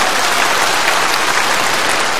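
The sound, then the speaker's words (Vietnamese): Audience applause at a monk's talk, a dense, even burst of many hands clapping together, loud and unbroken for the whole moment. “À, giỏi quá, cho một tràng pháo tay.”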